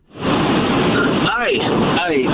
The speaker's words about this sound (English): I'm driving down the road. I got the hands free.